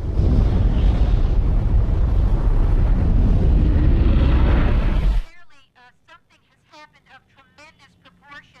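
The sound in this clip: A battered aircraft wreck explodes into a dark, fiery cloud in buffeting wind: a loud, dense roar holds steady for about five seconds, then cuts off abruptly, leaving a quieter voice speaking.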